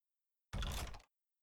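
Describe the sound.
A door being opened: one short, solid burst of sound lasting about half a second, alone in silence before and after.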